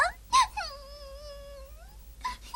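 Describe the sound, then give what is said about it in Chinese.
A dubbed voice in an animated film cries: a brief sobbing burst, then a long sustained high wail that holds fairly level before trailing off, followed by a couple more sobbing gasps. “现在哭也没有用啊”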